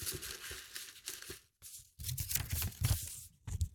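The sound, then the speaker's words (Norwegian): Soft rustling and crinkling of paper as a slip is drawn from a pile of submitted notes, faint and uneven, with a brief pause partway through. “Jeg trekker første lapp.”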